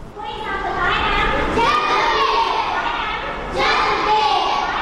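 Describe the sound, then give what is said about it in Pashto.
Many children's voices fill a school for working children in Peshawar, sounding loud and continuous as they speak or chant together. Occasional dull thumps come through the voices. “دا اوازونه د خواري مزدوري کوونکو ماشومان لپاره په پیښور کې د رڼا چایلډ ویلفیر فاونډیشن په نامه خوانځي دي.”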